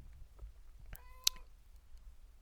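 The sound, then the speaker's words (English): A cat lets out a single short, fairly faint meow over a low, steady background rumble, with a brief sharp click near it. “My cat is being very loud, so if you hear her, I am sorry.”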